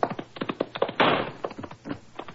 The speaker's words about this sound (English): Good shot, Watson.